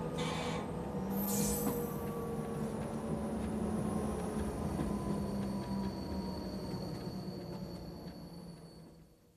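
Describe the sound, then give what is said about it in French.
A high-speed TGV train entering Quimper station gives a steady, loud rumble with thin high squealing tones above it. The sound holds throughout and fades near the end. “Et voilà, nous entrons en gare de Quimper.”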